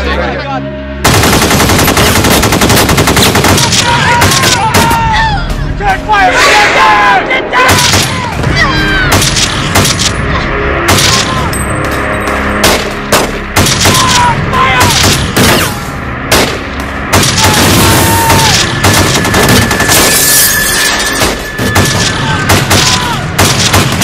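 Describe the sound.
Heavy automatic gunfire from gunmen wearing body armor with AK-47 rifles in a dramatization of the North Hollywood shootout: loud, dense bursts and booms go on almost without a break, with voices shouting between the shots.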